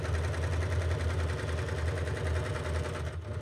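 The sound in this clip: Steady whirring motor of a Baby Lock serger sewing a two-thread flatlock seam on knit fabric for underwear, with a fast, even stitching pulse throughout and a brief dip near the end.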